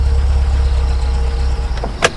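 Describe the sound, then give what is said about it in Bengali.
A white car's engine idles at a college gate at night, a steady low pulsing rumble holding even throughout, with a short sharp sound near the end. “রাত 11:05, একটা সাদা গাড়ি এসে কলেজের গেটের সামনে দাঁড়ালো।”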